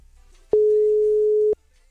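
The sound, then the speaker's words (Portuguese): A telephone ringback tone sounds on a call that goes unanswered: one steady, mid-pitched tone lasting about a second, heard alone over faint background noise. “Vou ligar pro Davi.”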